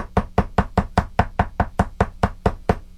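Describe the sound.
Knocking on an outer entrance door: a long, steady run of evenly spaced, firm raps, roughly five per second, continuing without pause and with no voices.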